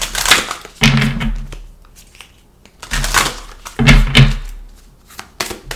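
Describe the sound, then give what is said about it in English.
Tarot cards being shuffled as a self-care card is pulled: a few bursts of papery, rustling riffle noise, each with a soft thump of the deck, separated by quieter gaps. “So I'll leave you guys here and pull a self-care card for you.”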